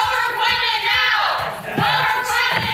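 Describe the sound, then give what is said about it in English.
Protesters in the audience at a senator's live interview shout loud chants about climate change. Many voices rise and fall in a rhythmic, insistent chorus. “Things went off the rails during a live interview with Ted Cruz Monday when protesters in the audience interrupted the senator's remarks with loud chants about climate change.”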